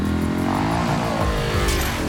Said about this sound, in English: Accelerates along the dunes surrounding the motel, driving poles into the sand as he goes.